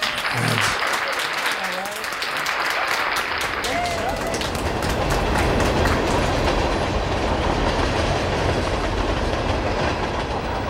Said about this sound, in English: Let the train